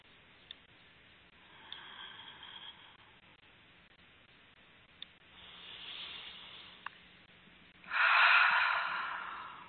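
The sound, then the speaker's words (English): A person exhales with a loud, breathy rush near the end. Before it come quieter, softer breaths and a few faint clicks over a low background hiss. “I exhale and breathe normally”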